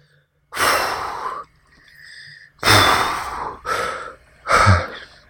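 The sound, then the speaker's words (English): Heavy breathing from a person: several loud, rough breaths in an uneven rhythm, with one softer breath between the first two. “You're starting to breathe heavy?”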